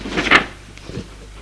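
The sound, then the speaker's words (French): A door being closed by a servant, heard as one short wooden thud with a bright clatter, then a softer bump shortly after, with no voices. “Le domestique ferme la porte.”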